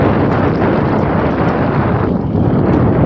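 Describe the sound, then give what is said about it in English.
Wind buffets a microphone outdoors on a brisk, freezing day. A loud, continuous roaring rumble holds steady for the whole clip, with no voices. “The wind is, I'm back in the wind. If you can't tell from the sound of the microphone, I'm back in the wind.”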